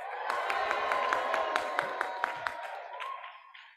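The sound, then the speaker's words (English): Audience at a National Federation of the Blind convention cheers and claps, a steady loud roar dotted with sharp individual claps that fades near the end. “I cannot begin to speak without asking you all, if you are an Aira explorer, please make some noise.”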